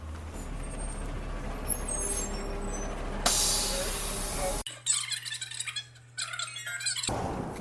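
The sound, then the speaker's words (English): Air brakes hiss loudly as a city bus pulls into a stop, a sudden bright burst of hiss rising out of steady engine rumble, followed by a quieter stretch of mixed squeaks and mechanical noise. “15 minute bus ride to get back home. And here comes the bus.”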